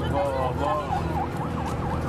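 A police car siren wails continuously and loudly, its tone sweeping rapidly up and down in many repeated cycles over a constant background rumble.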